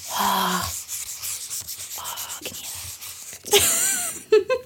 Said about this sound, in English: Hopefully you can hear that nice little pen thing. I bought these pens to decorate my co-workers' balloons, and I love them so much. They are really glittery. They're like metallic pens.